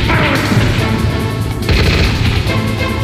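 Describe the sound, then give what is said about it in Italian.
Weapon sound effects from the video game Metal Gear Solid: loud, dense crashing booms and bursts that sound like gunfire and explosions, running almost without a break. “Il sound design di Metal Gear Solid è molto particolare, in quanto si avvale di sonorità piuttosto elaborate, specie quelle delle armi.”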